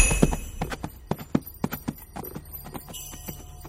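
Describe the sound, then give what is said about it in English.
Hoofbeats of reindeer pulling a sleigh over uneven ground, an irregular run of many sharp clip-clop strikes in quick succession, louder early on and softer toward the end. “Special Elf Cameron D. Kane navigates his unmarked sleigh over some uneven territory. You know my reindeer?”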